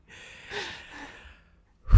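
Someone breathing in and out, a soft airy breath swelling and then fading into a slower exhale, with a sudden louder burst right at the close.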